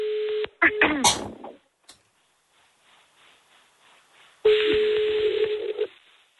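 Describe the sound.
An outgoing phone call rings after dialing. A steady ring tone sounds briefly at the start, then a short burst of voices and handling noise, a near-silent gap, and a second longer ring tone.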